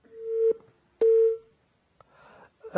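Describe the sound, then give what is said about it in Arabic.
Telephone busy signal after a call drops: two steady, mid-pitched beeps, each about half a second long, separated by a pause of equal length, followed by faint clicks and line noise. “أحباب الكرام يبدو أن الاتصال انقطع”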